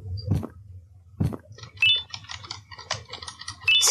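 Mouse clicks while playing the horror game Garten of BanBan 3: several sharp, irregularly spaced clicks, some louder than others, over a faint background.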